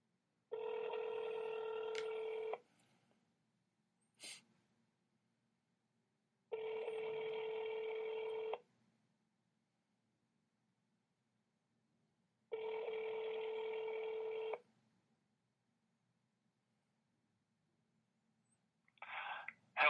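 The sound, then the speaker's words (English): Ringback tone of a phone call placed to a politician's office: three steady two-second rings separated by long silent gaps, with a brief click between the first and second rings and a short burst of sound at the very end. “So let's go ahead and call Joe Manchin now.”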